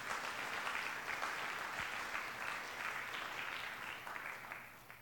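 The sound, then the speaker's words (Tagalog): An audience applauds during a church service, dense, steady clapping that holds at an even level for several seconds and eases off slightly at the end. “Palakpakan natin ng Lord, mga kapatid.”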